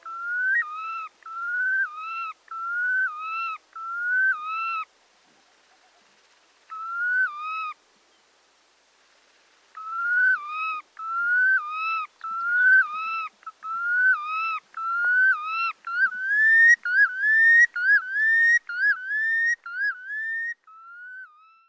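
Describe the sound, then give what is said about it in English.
Red Knot calls over Arctic tundra: clear, plaintive whistled notes, each sliding up and then down. A run of five comes first, then a lone call after a pause, then a long, quicker series of many calls. “That's a Red Knot recorded by our guest, Garrett Vinn.”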